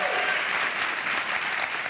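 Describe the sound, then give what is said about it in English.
An audience breaks into applause, a loud, thick, continuous patter of many hands clapping that stays even from start to finish. “it's too young for the you're still alive applause.”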